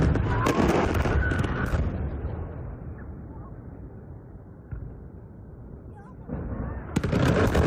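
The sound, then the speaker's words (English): Explosions from a US military strike on a bridge. Loud crackling blasts open and close the stretch, with a sustained low rumble between them. “posting this video of a U.S. strike on a bridge”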